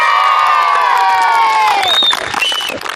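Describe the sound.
Children shout and cheer on the football field of the central primary school in Qaqun township, Shache County: loud, sustained high-pitched yells overlap in a lively din, then thin into a few scattered calls near the end.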